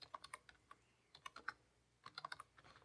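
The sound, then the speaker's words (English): Fingers type on a computer keyboard: quick clusters of light, crisp key clicks in irregular bursts with brief pauses, faint and without voices. “This is the best part is watching you try to type.”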